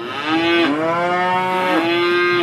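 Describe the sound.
A long, loud moo from prize cattle in the cattle tent at a large British farm show. The deep, rich tone wavers and dips in pitch twice as the call is held.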